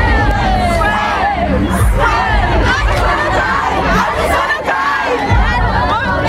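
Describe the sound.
A large crowd of fans outside a concert arena in Munich, before a pop concert, sings and shouts loudly together, a dense, continuous roar of voices with rising yells throughout.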